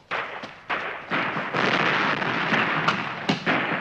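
Gunshots ring out in a shootout between Red and White Guard fighters. Several sharp, loud reports come at irregular intervals, each followed by a lingering noisy tail.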